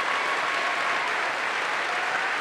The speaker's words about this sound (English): Can she get a round of applause?